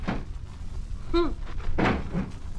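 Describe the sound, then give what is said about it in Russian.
A cupboard door opens in a children's audio story, with a couple of short creaking squeaks and soft knocks over low background noise. “Ну-ка, открой шкаф.”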